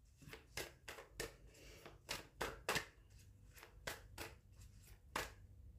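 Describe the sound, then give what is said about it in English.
Tarot cards being shuffled and pulled from a deck: many crisp, faint papery snaps and slaps in an uneven rhythm, with no talking. “All right, let's pull some cards for this week. And this baby wants to drop out.”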